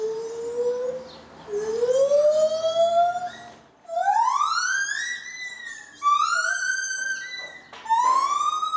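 An animal's great call duet song in the jungle: loud, long whooping notes that sweep upward in pitch, several siren-like phrases following one another and overlapping, with no talk.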